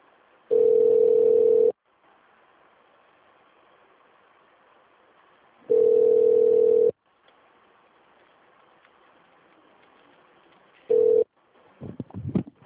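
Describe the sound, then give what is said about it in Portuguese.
A ringback tone sounds on a phone line while a bank call is transferred. Two steady low beeps, each about a second long, are separated by long pauses, a third is cut short, then a voice begins. “Aguarde um instante enquanto sua ligação está sendo transferida para um de nossos atendentes.”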